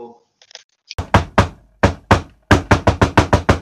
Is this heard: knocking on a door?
yes

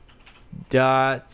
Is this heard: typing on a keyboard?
yes

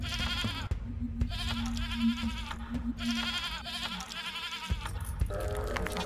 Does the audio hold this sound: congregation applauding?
no

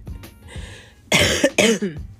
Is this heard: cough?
yes

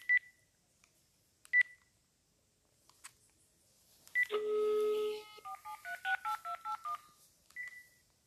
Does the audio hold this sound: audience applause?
no

